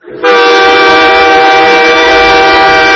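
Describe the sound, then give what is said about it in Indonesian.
A train at a railway station sounds its horn in one loud, continuous blast. The rich, buzzing tone starts quickly and holds steady for about three seconds. “Masya Allah, itu suara kereta teman-teman. Berarti kita ada di stasiun kereta.”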